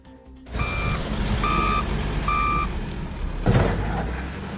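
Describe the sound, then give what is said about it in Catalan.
Reversing alarms from excavators demolishing huts: three steady, high-pitched beeps sound at an even pace over a continuous low engine rumble. “Aquest so és d'avui, el mateix que sonava al poblat fa 2 setmanes. Les excavadores han tornat a tomar 7 casetes de venda de droga en grans banderes d'Espanya.”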